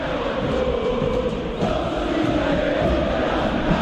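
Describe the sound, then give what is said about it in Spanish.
River Plate supporters chant in their stadium at Núñez, directing their song against the AFA president. The sound is a thick, continuous mass of voices singing together at a moderate, even level. “Hace rato que cada uno de los cánticos del público de River tiene que ver justamente con la figura del presidente de la AFA y no lo consideran muy bien,”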